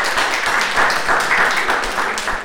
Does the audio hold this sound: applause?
yes